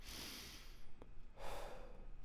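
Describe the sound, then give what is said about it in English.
Quiet, airy breathing during a guided breathing exercise, drawn in through the nose and let out through the mouth, heard as two soft rushes of air with a brief pause between them. “Go ahead and breathe in through your nose and out through your mouth.”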